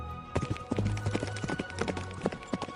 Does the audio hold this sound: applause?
no